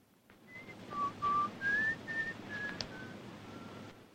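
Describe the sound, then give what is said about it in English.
A lone man whistles a soft, wandering tune of a few short, clear notes at varying pitch. The whistling is faint, with quiet gaps and a thin background hiss. “Marenkov sits alone and whistles.”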